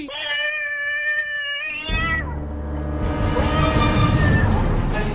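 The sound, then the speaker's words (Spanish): A cat gives one long, sustained, high meow that bends downward at the end, followed by a busy, noisy stretch of sound. “¿Monja gato? ¡Ah! ¡Nuestra gata!”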